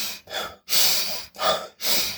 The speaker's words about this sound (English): So that one, when you want to do 25 to 30 fast breath in,